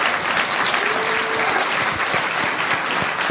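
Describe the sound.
An audience claps for the organizing committee, a brief burst of dense, even applause that stays steady throughout.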